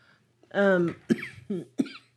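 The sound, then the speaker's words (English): A person is coughing in a sudden fit they cannot stop: a rough voiced rasp, then a few sharp, abrupt coughs in close succession. “I can't quit coughing all of a sudden.”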